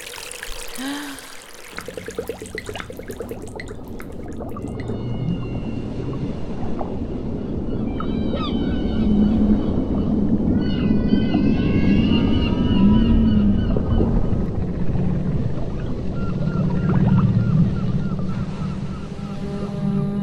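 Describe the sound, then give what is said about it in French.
Water rushes around a swimmer underwater: a continuous muffled low roar with bubbling, gurgling textures and brief warbling tones drifting above it. “Il faut que je rentre dedans maintenant. L'eau pénètre ses oreilles.”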